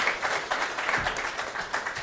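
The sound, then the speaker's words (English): Applause from a comedy audience welcoming a comedian onto the stage: thick, continuous clapping with a slightly uneven swell and fall in loudness. “For the listeners, I got on the chair. That's what they're cheering for.”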